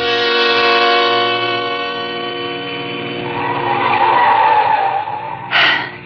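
Tires squeal as a car is driven fast up a steep, winding mountain road: a loud, sustained high screech that holds for several seconds, then ends with a short sharper burst.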